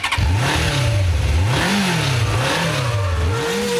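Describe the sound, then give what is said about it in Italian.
Car engine revving in a short radio jingle for a sports and motoring segment. The loud, steady engine note swings up and down in pitch several times, with no talking. “direi di far partire la sigletta”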